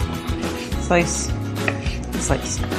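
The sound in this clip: A knife slicing food on a cutting board while enchilada ingredients are prepared, giving a few sharp, irregular knocks and cuts at moderate loudness.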